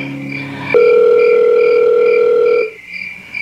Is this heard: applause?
no